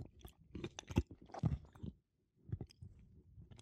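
Olives being chewed: soft, moist crunching comes in close bursts, stops briefly, then resumes with a few more bites, faint and with no talking.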